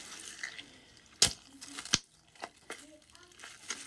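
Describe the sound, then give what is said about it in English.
Plastic shower caps rinsed under running water: faint splashing and wet crinkling, broken by a few sharper splashes and rustles. “So I rinsed them out because all I did was use these for two rinses.”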